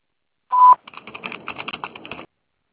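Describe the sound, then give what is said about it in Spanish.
A voicemail tone sounds before a message is recorded: a single loud, steady beep, followed by a string of many short, quieter clicks or tones. “Después del tono, guarda tu mensaje.”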